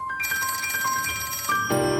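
A telephone rings while a call is being placed, a bright, continuous trilling ring tone with a shift in pitch near the end.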